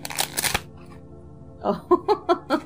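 A deck of tarot cards being shuffled: a dense, papery riffle burst at the start, a short pause, then a few quick rhythmic flicks and taps of the cards.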